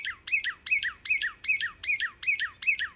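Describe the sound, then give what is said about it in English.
A northern cardinal sings at dawn, giving eight clear, downward-slurred whistled phrases in an even, steady rhythm. Each phrase is bright and evenly spaced, with only a faint low background beneath the song. “The first songbird to sound off at dawn is none other than a northern cardinal.”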